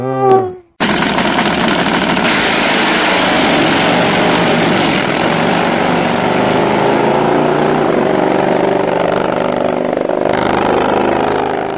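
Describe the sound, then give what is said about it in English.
A drag racing car engine roars after a short opening swell, breaking abruptly into a loud, sustained, harsh crackling blare that holds steady for about eleven seconds, with no voices. “Drag racing, there is absolutely nothing like it.”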